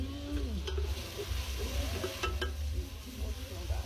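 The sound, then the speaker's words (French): Hot cooking oil is poured out of a pan, giving a steady crackling sizzle over a low rumble that holds at an even level throughout. “Ouais, je commence à vider l'huile là.”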